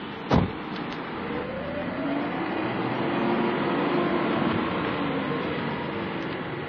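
A car pulling away: one sharp click at the start, then a steady, faint engine and road rumble that swells slightly as the car drives off.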